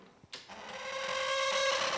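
A homemade mechanical smoking machine, long unoiled, starts up after a few brief clicks. It settles into a dry, squeaky whirring drone with a steady tonal whine that grows gradually louder.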